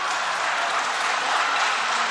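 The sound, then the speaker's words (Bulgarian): Applause from an audience in a parliament chamber: a dense, steady patter of many clapping hands, fairly loud and unbroken for the whole stretch. “Не знам защо ръкопляската.”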